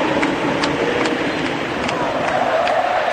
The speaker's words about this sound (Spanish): Escuchen el público, escuchen el público.